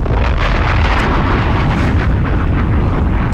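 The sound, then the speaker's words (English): Bombs explode in a loud, continuous rumbling roar with no clearly separate blasts. The roar holds at full strength throughout, then cuts off abruptly at the end. “Bombs!”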